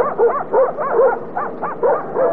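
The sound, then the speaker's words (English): Dogs bark and whimper in a quick series of short, high yips and whining cries. The calls are evenly paced and fairly loud, with no talk over them. “You call out them dogs. Okay. Come on, fellas. Come on, nice doggy. Come on, doggy.”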